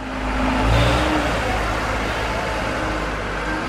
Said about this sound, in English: This was the sound of dump trucks and bulldozers during the building of the Patricia and Philip Frost Museum of Science